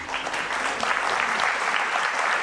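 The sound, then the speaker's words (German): Applause from a live audience at a German-language recorded talk event: dense, steady clapping fills the whole stretch at an even loudness, with no voices over it. “aber hier nochmal einen kleinen Applaus.”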